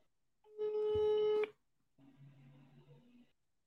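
An outgoing phone call rings unanswered: one steady buzzing ringback tone lasts about a second, then a quieter, lower sound follows briefly.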